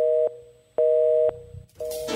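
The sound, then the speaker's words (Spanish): Telephone line tone as a call transfers to a radio show's voicemail: steady mid-pitched beeps, each about half a second long and separated by gaps, with the third overlapped by rustling noise. “Su llamada será transferida al buzón de Roger en Exa.”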